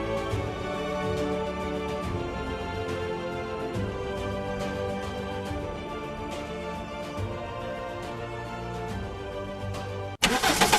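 A 2022 Mercedes-Benz GLA 250 compact SUV engine starts with a sudden, loud burst right at the end, after a long stretch of steady music.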